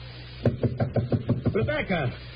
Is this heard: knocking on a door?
yes